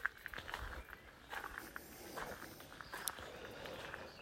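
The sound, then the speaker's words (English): Footsteps of someone walking outdoors around to the front, a faint series of many irregular crunching steps with soft scuffs and taps between them over a quiet background. “Just walking around to the front.”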